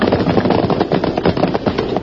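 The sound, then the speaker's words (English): Rapid gunfire in a Western radio drama set in a canyon during a horseback chase: a dense, unbroken string of sharp cracking bursts that runs loud and steady for about two seconds. “You're lucky I lined my sights on the flash of your gun.”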